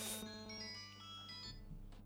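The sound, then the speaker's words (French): An electronic telephone ringtone sounds as calls come in, a steady tonal chime with clear harmonics, fairly faint and without talk over it. “Ah, ça sonne de partout. Ça y est, on est débordé par les appels.”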